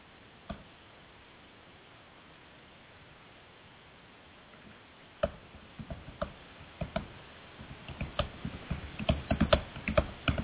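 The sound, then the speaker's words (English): Typing on a computer keyboard, a few isolated key taps at first, then increasingly rapid, irregular clicking that grows denser and slightly louder toward the end. “I know people are going to get mad at me for the dead air while I'm trying to type this question”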